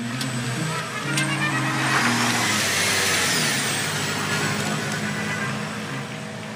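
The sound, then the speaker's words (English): A plug-in hybrid Jeep Wrangler peels out and drives off, its engine and road rush swelling early, holding as a broad whoosh, then easing toward the end. “That was Biden peeling out, sort of, in a plug-in hybrid Jeep Wrangler”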